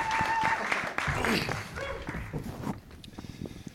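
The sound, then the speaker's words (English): A round of applause greets two people called up on stage. Clapping starts fairly full, then thins out into scattered claps over the last second. “And you can give them a round of applause.”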